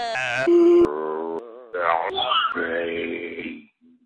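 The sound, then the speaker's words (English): A segment sound effect of listener moans, groans and grunts: a string of drawn-out vocal moans and wails that bend and waver in pitch, then lower grunting groans, ending in a short faint utterance. “It's time for listener moans, groans, and grunts.”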